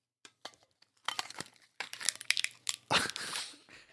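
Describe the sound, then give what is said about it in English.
Cellophane shrink wrap crinkles in close, crisp bursts for ASMR, starting with a few sparse crackles and building into many dense, irregular rustles and crunches. “Oh, yeah, that's cellophane. Yep. That shrink wrap.”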